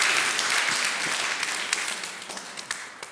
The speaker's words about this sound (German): Applaus